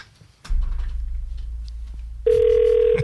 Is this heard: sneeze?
no